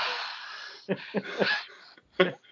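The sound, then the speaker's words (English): A voice imitates the heavy, wheezy breathing of a man standing right next to someone: a long raspy exhale, then a few short, breathy, gasping bursts in irregular rhythm. “He gets under your skin just by breathing. He just stands next to you going,”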